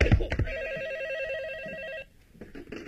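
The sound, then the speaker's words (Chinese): A telephone rings with a warbling electronic ring lasting about a second and a half, with a few brief noises before and after it. “二哥，你的电话。”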